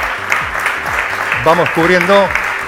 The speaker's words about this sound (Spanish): Si le pueden aplaudir